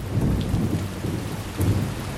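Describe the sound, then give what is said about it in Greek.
Heavy rain and thunder from a night storm on a Greek island: a dense, steady hiss of downpour with deep thunder rumbles swelling twice beneath it. “Μπόρα και σκοτάδι”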